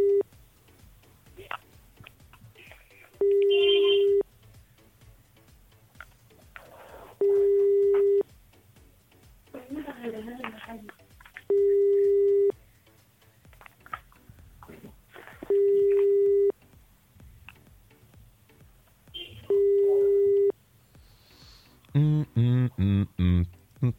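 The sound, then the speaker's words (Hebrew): Telephone call tones: five evenly spaced bursts of a steady mid-pitched tone, with voices talking in between, followed by a rapid run of shorter dialing tones at the end. “רבינו המערשה, הנה אנחנו מחייגים.”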